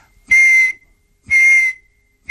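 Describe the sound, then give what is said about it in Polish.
Two steady, high-pitched whistle blasts, each under half a second, separated by a short silence. A third blast begins right at the end. “Albo mi coś gwizdzie koło ucha”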